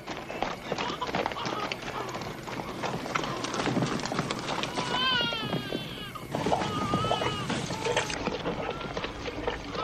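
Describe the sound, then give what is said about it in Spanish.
Horses' hooves clopping as the animals walk through a village at night toward a fountain in a 1973 Western, a steady uneven patter of hoofbeats that runs throughout, with a voice briefly rising over it midway. “la noche caminan por el poblado por el que pasaron hasta llegar a la fuente. Allí acercan a los caballos para que beban.”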